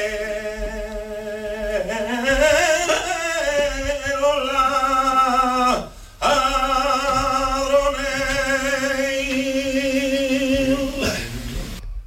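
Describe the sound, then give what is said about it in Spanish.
A primitive saeta, a short flamenco-style religious song, sung by a solo voice in long, wavering melismatic notes that bend and slide, with a brief break midway before the singing resumes. “Y así surge la saeta primitiva, que suena así.”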